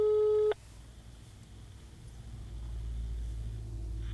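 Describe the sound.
A telephone tone heard while placing a call sounds as one loud, steady beep of about half a second, then gives way to a faint low rumble that slowly grows.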